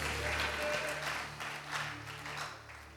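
Congregation clapping their hands at a religious gathering, a steady, fairly faint patter of many claps that swells and eases, with a low sustained tone underneath.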